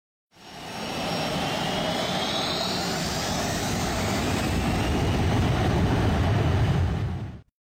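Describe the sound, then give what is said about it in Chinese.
Airliner taking off: a jet engine roar swells in quickly and then holds loud and steady for several seconds, with a thin high whine rising early on, before cutting off at the end. “接下来就请您放松身体。静静等待，我们的航班即将起飞。”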